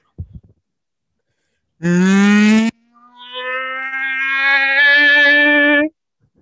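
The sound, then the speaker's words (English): A human voice imitating the THX studio intro sound: a short loud burst, a brief pause, then a long sustained harmonic hum that swells steadily in loudness before cutting off. “You know those like the THX like studio intro?”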